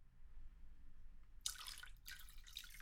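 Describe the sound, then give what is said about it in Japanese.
Hot water poured to top up a bath or vessel that has turned lukewarm, two short bursts of splashing, gurgling liquid, fairly soft, with no voices. “少しぬるくなってきたかな。お湯を継ぎ出しますね。”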